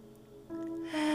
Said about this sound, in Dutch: Nog een laatste keer in langs de neus.